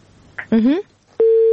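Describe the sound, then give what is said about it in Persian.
A telephone busy tone sounds after a caller's line drops during a phone-in: a single loud, steady beep at one pitch that comes after a brief voice. “متاسفانه که تماس خواهر ما قطع شد”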